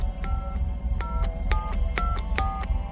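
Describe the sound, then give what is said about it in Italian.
Touch-tone beeps of a telephone number being dialed on a videophone, a quick run of about ten short two-tone pips with uneven gaps, heard over a low rumbling background. “Ho fatto il numero di casa mia, avrebbe dovuto rispondermi mia moglie.”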